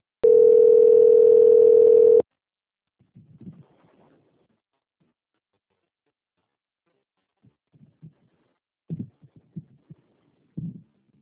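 A steady telephone tone while a call is being transferred, one unbroken mid-pitched beep lasting about two seconds, then near silence with a few faint, soft low sounds.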